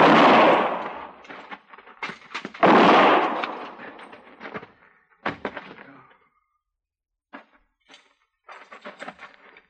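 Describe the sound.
Shotgun blasts in a shootout: two loud, booming discharges a few seconds apart, each with a rumbling tail, followed by scattered quieter cracks and thuds, and a short silence before more faint knocks.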